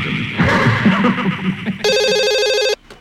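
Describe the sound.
A telephone rings in a Halloween Radio app advert: a loud noisy rumbling stretch gives way to one steady, bright electronic ring burst that cuts off abruptly near the end.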